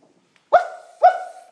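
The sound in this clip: A dog barks twice at a door: two short, sharp barks about half a second apart, each with a brief trailing tone, standing alone against silence.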